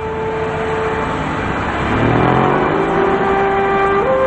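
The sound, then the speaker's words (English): Cars whizzing by on a street in bright daylight: a steady roar of traffic with shifting engine tones, and a louder pass of vehicles in the middle as engines rise and sweep past. “Cars are whizzing by.”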